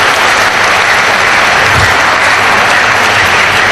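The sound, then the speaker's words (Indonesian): Dense, steady applause from an audience for two guest speakers at an evening religious gathering, loud and unbroken from start to finish with no voices. “mari kita sekali lagi berikan aplaus bagi dua narasumber kita.”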